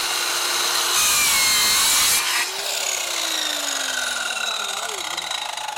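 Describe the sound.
A saw makes the last cut through timber on a building facade and strikes a nail in the final centimetre. A steady, loud grinding rasp has a harsher burst partway through, after which the cutting tone changes.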